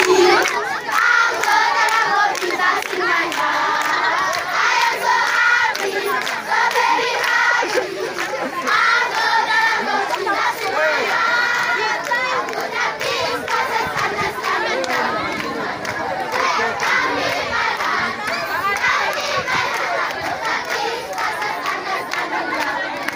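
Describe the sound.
Children at a Christian school in Uganda shout excitedly to welcome arriving visitors. A loud, continuous mass of young voices cries out and chatters without a break for over twenty seconds.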